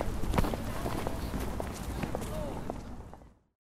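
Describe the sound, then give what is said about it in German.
Footsteps of someone walking along a route toward a church tower, a steady stream of many soft steps over a scuffing ground noise that fades out near the end. “Also los jetzt, lass uns gehen.”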